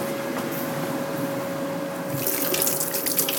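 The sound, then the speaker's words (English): Water runs steadily from a tap as flour is washed off hands while cooking onion rings, a continuous hiss that turns brighter and more splashy in the last second or so, with no talking. “washing all this flour off my hands so I can also put a little bit of oil”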